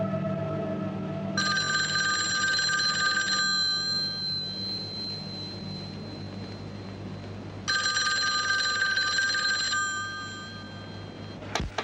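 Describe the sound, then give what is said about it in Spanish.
A telephone rings in a film scene with two bursts of bright, high electronic trilling separated by a long pause, loud and steady with no voices. “¿Estás dormido o qué? Dory Robinson está en el teléfono.”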